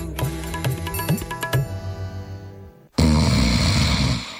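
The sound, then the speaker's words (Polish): A loud, rough, rattling snore starts abruptly about three seconds in, after a short tonal musical passage, and continues to the end. “Każdy z nas zna kogoś, kto chrapie i nic dziwnego, bo na tę dolegliwość cierpi aż około 13 milionów Polaków.”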